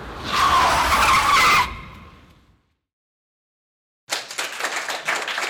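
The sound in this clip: A car skids to an emergency stop with a loud, harsh tyre screech lasting over a second, fading out into silence before a burst of clapping follows.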